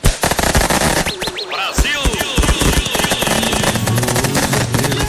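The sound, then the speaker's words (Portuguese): Fireworks going off for a birthday celebration, a dense, loud barrage of rapid bangs and crackles with several whistling rockets rising early on. “Ah, então som aí e bomba, né? Foguetes aí pra irmã, né?”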